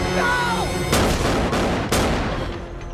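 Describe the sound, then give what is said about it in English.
Gunfire from a pistol during a clash with pirates on a boat: a few sharp, loud shots, with the first and last strongest, each followed by a lingering rumbling decay. “shoots him in the head and turfs the corpse overboard.”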